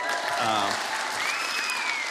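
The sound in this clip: Audience applause at a talk: dense, sustained clapping holds steady and loud throughout, with a brief voice rising out of the crowd early on.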